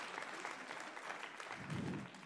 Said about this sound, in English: go ahead and clap that one up